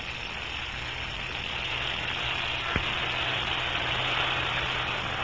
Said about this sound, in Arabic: ما ذاك؟ يبدو أنه صوت سيارة